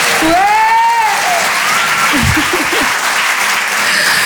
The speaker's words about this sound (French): J'ai eu 34 ans lundi, donc faites du bruit pour ça s'il vous plaît.